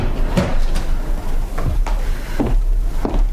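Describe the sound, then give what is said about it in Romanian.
Old windows in an old house in Rome are pulled shut, with a few sliding scrapes and wooden knocks in uneven succession over steady background noise. “Doamne, ferestrele astea sunt un adevărat blestem. Ceva calm în stradă. O clipă, domnișoară, să le închid.”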